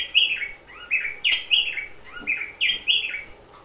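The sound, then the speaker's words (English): A wild bird repeats a high, clear call: several short phrases, each stepping downward in pitch, separated by brief gaps. The bird sounds alone over a faint, even background. “This is one of the birds we were after.”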